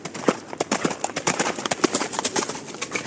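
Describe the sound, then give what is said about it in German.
Hooves of mounted police horses clip-clop during training, with many brisk, uneven hoofbeats following closely one after another throughout. “Und hier trainiert gerade zusammen mit ihren Kollegen Katrin Bahn bei der Reiterstaffel.”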